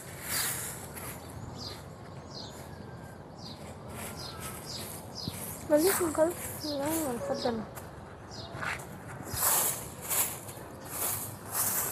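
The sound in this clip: Birdsong and broom sweeps in a house courtyard in N'Djamena, Chad, early in the morning: many quick high chirps and twitters repeat throughout over soft scratchy brushing, while people talk.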